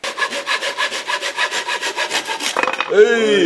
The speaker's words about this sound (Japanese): これ一応ね線をこう、まあ、1,2,3,4,5 回こう切っていただきますと、